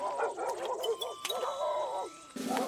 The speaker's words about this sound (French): Leur course, rythmée par les aboiements des deux autres chiens, rendus fous par l'odeur du sang et de la mort.